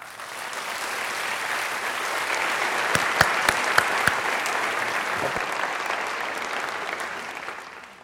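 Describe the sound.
Congregation applause welcomes a speaker at a church service: many hands clap in a sustained, even wash that swells slightly, with a few sharper individual claps standing out midway, then gradually thins toward the end.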